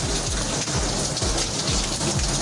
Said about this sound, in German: Es regnet aus dem Physikgebäude.